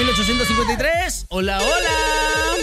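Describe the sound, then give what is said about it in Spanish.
Electronic ringing of a telephone line for an incoming call, a loud warbling melodic tone with swooping pitch, cut by a brief dropout midway before resuming. “Venga, tenemos llamada. Échame línea telefónica”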